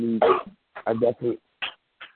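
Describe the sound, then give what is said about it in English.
Coughing from someone on a call who has not muted: a few short, harsh, rough bursts separated by brief pauses, with some voiced throat sound at the start. “if you want to cough, please mute. I can't talk when you're coughing.”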